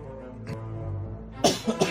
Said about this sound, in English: excuse me, I had to cough there.